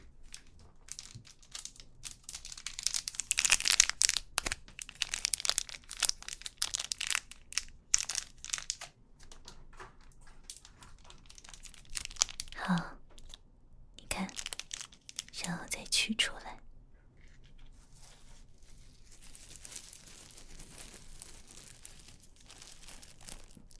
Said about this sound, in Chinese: 那你看着，我教你，像这样子撕开。